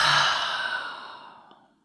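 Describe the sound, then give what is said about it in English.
A single deep breath is let out through an open mouth. The breathy exhale is loudest at the start and then slowly fades away over nearly two seconds. “Take a deep, full breath all the way into your heart. Inhale. Open your mouth and let it out. Exhale.”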